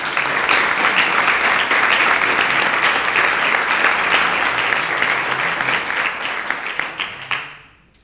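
An audience at a game jam event applauds the organisers with loud, dense clapping that holds steady for several seconds, then thins and fades away toward the end.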